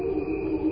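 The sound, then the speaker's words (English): Crickets chirping, electronically slowed down in time, turn into a steady, sustained drone of layered tones with a faint pulsing texture. “And this is the sound of crickets slowed down. Slowed down electronically in time so that you hear the actual melody that they're singing.”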